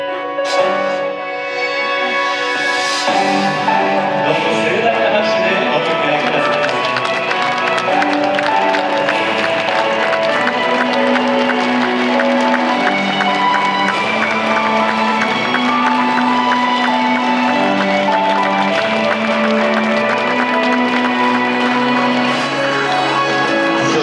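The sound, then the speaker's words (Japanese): Wedding guests applaud as the bride and groom enter a Shinto wedding ceremony, a steady wash of clapping that continues for about twenty-four seconds beneath sustained, tonal music. “どうぞお二人のご登場の際には皆様方の盛大なる温かな拍手でお二人をお包みくださいませ。”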